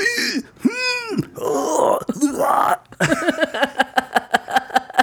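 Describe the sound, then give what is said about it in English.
A voice mimics the dying groans of stabbed movie victims with wet, gurgling moans and retching, burp-like croaks. It ends in a rapid, even run of many short grunting pulses. “These people getting stabbed and like, ninjas are throwing at them, they would do sounds like this.”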